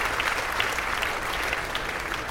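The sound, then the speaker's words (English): An audience gives children a round of applause: dense, steady clapping at an even level throughout. “Now give these kids another big round of applause.”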